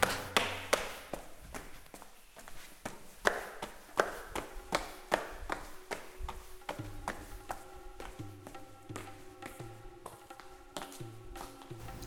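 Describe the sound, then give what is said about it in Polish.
Footsteps climbing a staircase: a long run of many steady, evenly paced thuds and taps. A faint low hum sits beneath them. “Tu są schody. I wchodzimy sobie do góry.”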